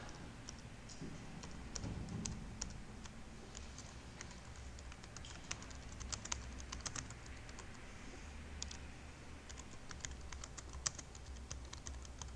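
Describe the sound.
Typing on a computer keyboard during a programming lesson: a faint, continuous patter of rapid, irregular key clicks.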